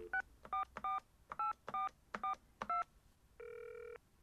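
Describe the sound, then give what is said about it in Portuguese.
Touch-tone keypad beeps as a telephone number is dialed: seven short dual-tone beeps in a slightly uneven rhythm, then one longer steady tone, all fairly quiet with no voices. “Telefona se tiveres o número dela”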